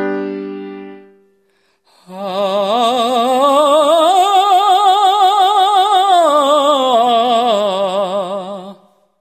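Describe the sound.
A singing voice performs a one-octave scale exercise with A sharp as the top note. It climbs step by step to the high note, holds it, then descends, each note sustained with strong vibrato after a brief fading tone.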